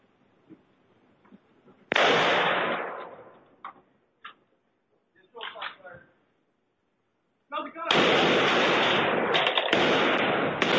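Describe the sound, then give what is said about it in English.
A gunshot, caught by a doorbell camera as officers drive past, comes as one loud, sharp crack that decays. A few faint clicks and brief sounds follow, then a long stretch of loud, harsh noise. “You guys saw when they were driving by and you heard the shot going off.”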